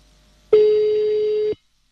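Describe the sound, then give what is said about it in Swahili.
A single telephone ring tone: one steady low-pitched beep lasting about a second that cuts off abruptly, heard alone against silence. “Ujasikia simu yako ikiitana, basi labda si wewe.”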